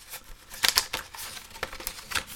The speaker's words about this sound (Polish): Otwieramy blister, jak powiedziałem, jest on wielorazowy.